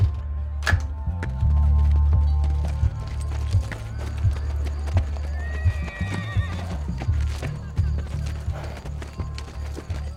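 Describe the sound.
Pony hooves clip-clop in many steady, evenly spaced knocks across the whole stretch, with a whinny rising over the footfalls midway through.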